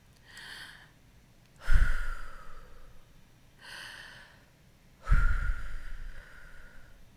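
Two slow, deep breaths taken in and out as part of a guided breathing moment, each a soft, airy breath followed by a louder, longer breathy rush. They are spaced evenly, with quiet between them and no talk.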